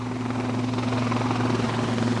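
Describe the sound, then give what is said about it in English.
Large helicopters carrying oil workers over the Delta to offshore wells and drilling rigs make a continuous, pounding rotor drone that stays steady and even throughout. “Large choppers pound the air over the Delta all day, every day, lugging oil workers to and from some 4,000 offshore wells and drilling rigs.”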